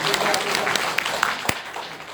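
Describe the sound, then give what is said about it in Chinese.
Clapping from a church audience applauding a radio engineer who works behind the scenes: sharp individual claps sound at irregular intervals over a steady bed of applause, with a voice also present. “所以呢，哎，给他一些掌声，他做的很好。”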